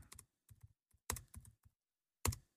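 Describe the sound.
Typing on a computer keyboard comes in a few short, faint bursts of key taps separated by quiet gaps, with a firmer keystroke near the end.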